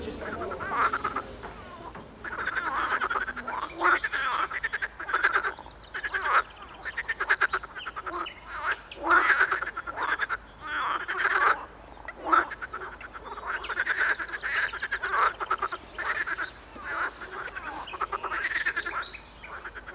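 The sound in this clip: Tree frogs croak in response to a metronome, a dense, steady chorus of rasping, pulsing calls that overlap in rapid bursts throughout.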